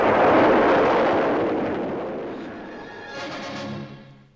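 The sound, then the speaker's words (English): Roaring blast-off of an Atlas missile at Lake Canaveral in Florida: a loud, broad rumbling roar that swells at once and fades steadily, with a brief higher tone near the end. “The nose cone of an Atlas missile was to be the carrier. The point of departure was at Lake Canaveral in Florida, and now the time had come for the blast-off.”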